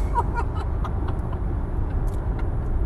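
Steady road and engine rumble inside a moving car, a constant low drone that fills the whole stretch without breaks, with faint light rustling on top.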